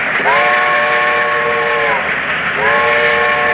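A loud steam train whistle sounds two long, sustained blasts separated by a short gap, over a steady rumble from a train carrying soldiers and caged dogs.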